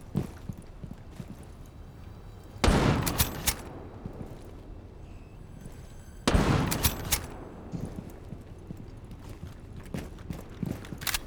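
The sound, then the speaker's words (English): Video game gunfire erupts in two loud bursts of rapid shots separated by a lull, with quieter scattered clicks and thuds in between. “I hear pot shots.”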